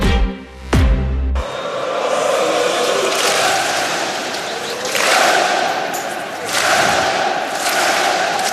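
Rennes football supporters clapping and cheering to congratulate their players: a loud, dense crowd roar that swells and eases several times, following a brief tonal sound at the very start.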